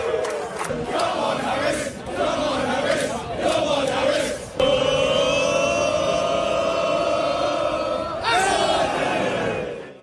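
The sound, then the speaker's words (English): England football fans chant in unison at a baseball game: a loud, sustained roar of many voices holding long sung notes, with a short break midway before the chant swells again and then cuts off. “Classic football chant, except it's at a baseball game. It's baseball chanting by football fans.”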